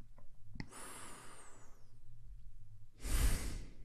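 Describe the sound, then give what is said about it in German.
Deep breaths drawn in and let out slowly: long, airy rushes of breath with no talking, the final breath louder and more forceful than the one before. “Als erstes, wie oft kannst du 2 oder 3 tiefe Atemzüge nehmen?”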